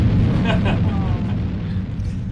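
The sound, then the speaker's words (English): A rocket setting off with roaring flames, a loud, continuous low rumble that barely varies and eases slightly toward the end, with a voice talking over it. “the flames from the rocket, which is just setting off, only feet in front of him, begin to warm his face”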